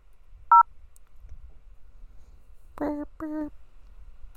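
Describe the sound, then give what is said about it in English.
A single short telephone keypad tone as an extension number is dialed into an automated company phone menu, followed after a quiet pause by two brief voiced sounds. “If you know the extension number you require, please dial it now.”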